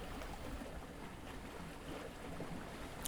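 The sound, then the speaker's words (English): A 13-metre Sedna sailboat under way at sea at midnight, making 6 knots from Guaymas toward Puerto Vallarta, gives a faint, steady rush of water and wind with no talk. “we're sailing at 6 knots and it's midnight”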